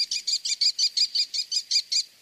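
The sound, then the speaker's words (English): Shrill, high-pitched calls of an American kestrel, a small North American falcon, delivered as a rapid, evenly spaced series of about eleven sharp notes that stop abruptly. “The American Kestrel. Small, numerous, and widespread.”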